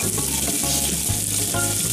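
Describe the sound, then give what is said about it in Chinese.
Steady hot-oil sizzle of ginger and garlic frying in a pan before pork strips are cooked, loud and continuous, broken by a few brief stirring scrapes, with no talking. “好，这时候姜，你看姜要变色了，味儿出来了。放了蒜。”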